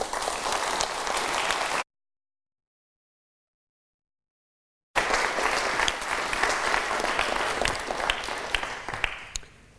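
Audience applause welcoming Michel Barnier at the Royal Society of Arts: thick, continuous clapping from many hands, cut by a few seconds of silence, then resuming just as dense before tapering off at the end.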